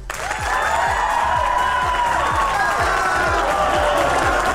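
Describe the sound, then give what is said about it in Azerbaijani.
Applause and cheering from a quiz show audience, a loud, sustained crowd roar over a steady rhythmic low thumping. “Yəqin ki, başa düşdünüz də artıq bu alqışlar nə deməkdir.”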